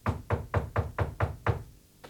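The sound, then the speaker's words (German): Knocking on a door: seven firm, evenly spaced knocks in a brisk steady rhythm, followed after a short pause by one fainter knock. “Es klopft. Mach auf!”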